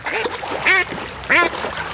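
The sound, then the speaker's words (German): Ducks living in a city give two loud, nasal quacks, each a short harsh burst with a slightly descending tone, separated by about half a second over a steady low background. “Enten.”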